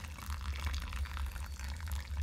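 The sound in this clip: Dark roast coffee draining through a pour-over filter: a faint, steady trickle of liquid over a low hum, with no talk.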